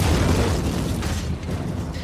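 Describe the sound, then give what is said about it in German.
A deep, loud explosion rumbles as blasting demolishes the war-damaged remains of the Berlin Palace under the GDR government. The low roar is sustained and slowly subsides. “Fünf Jahre nach dem Krieg hat die Regierung in der DDR entschieden, das, was noch übrig war, einfach wegzusprengen.”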